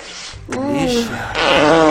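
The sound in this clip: A loud, drawn-out fart blown through denim jeans: a wavering, buzzy tonal blast lasting about two seconds that swells into a fuller burst near the end, mixed with voice-like moaning sounds.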